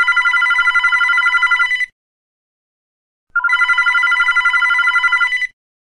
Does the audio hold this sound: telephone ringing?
yes